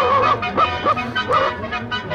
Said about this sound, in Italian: Ecco che lo sentiamo, questo simpatico cagnolone.